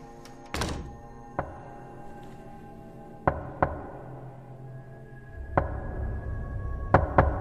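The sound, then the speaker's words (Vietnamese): Knocking on a bathroom door while someone bathes: a few sharp, dull thunks spaced irregularly, with several quick raps bunched near the end over a quiet background. “Lại có tiếng gõ cửa vang lên.”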